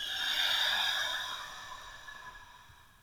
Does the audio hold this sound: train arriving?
no

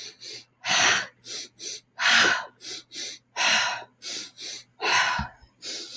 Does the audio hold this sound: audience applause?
no

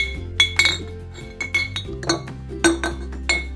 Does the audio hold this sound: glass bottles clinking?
yes

